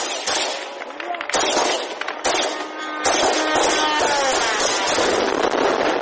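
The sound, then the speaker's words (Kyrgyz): Police gunfire aimed at an Iranian kamikaze drone over Kyiv at dawn: a few sharp, loud bangs cut through continuous rough noise, with voices audible. “Киевтин полициясы таң эрте баш калааны көздөй учуп келаткан ирандык жан кечти дронду атып түшүрүүнүн аракетинде.”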